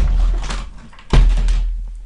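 A window swings shut with a single dull thunk about halfway through, set against a low, steady background rumble.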